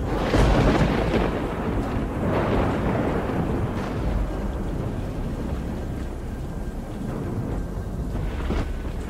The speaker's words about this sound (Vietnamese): Tiếng sấm trầm đục vang lên.